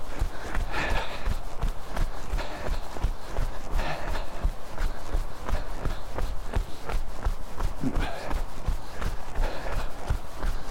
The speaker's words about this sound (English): So I'm making my way down the hill now, and we're almost at the end of the run and almost at the end of the episode.